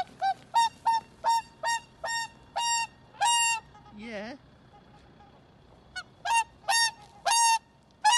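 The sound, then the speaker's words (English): Repeated loud, nasal honking calls from Pickles, a swan celebrating his 30th birthday with a special cake at Leeds Castle near Maidstone. Many honks come in a steady series, some longer and drawn out, with a quiet pause midway before a final burst. “you can see a video of a rather noisy swan being given a birthday treat at Leeds Castle near Maidstone.”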